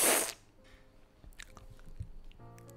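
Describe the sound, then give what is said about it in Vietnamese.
Quiet, moist chewing of rolled phở cuốn with fried shallots and dipping sauce, a few soft squishy bites and faint clicks after a brief loud burst at the start. “Ăn hết cuộn phở đầu tiên, làm ngụm sữa ngô cho đỡ cay.”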